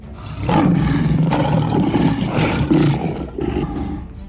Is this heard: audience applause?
no